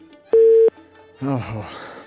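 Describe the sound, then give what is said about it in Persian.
A single steady electronic tone of a telephone call cut off after the credit ran out, lasting about a third of a second, is followed by a voice speaking. “متاسفانه چې د محبت جان تماس قطع شو او معلومېدل چې کرېډټ خلاص شول”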